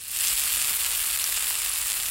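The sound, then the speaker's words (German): Bratwurst sausages, Protestant and Catholic 'ecumenical' bratwursts made by master butchers, sizzle in a frying pan: a steady, bright crackling hiss that holds evenly from start to finish, with no talk. “da brutzeln sie in der Pfanne, die evangelischen und die katholischen Bratwürste”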